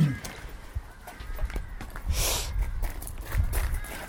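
Footsteps of people walking on the grounds of an old Augustinian priory: soft, irregular treads thud at a loose walking pace, mixed with breathy rustling and brushing noise.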